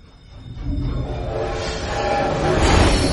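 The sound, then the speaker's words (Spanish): A train passes through a tunnel with a deep, continuous rumbling roar that grows steadily louder toward the end, with no voices. “De un tren pasa por un túnel.”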